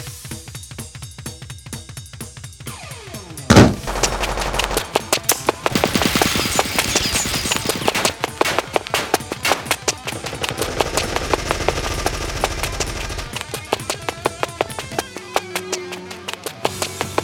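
Automatic weapon gunfire: after one sharp crack, a long stream of rapid, loud, evenly repeating shots continues for many seconds in dense bursts.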